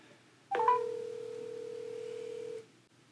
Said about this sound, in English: So prank call picks, episode 3. Let's give him a dial.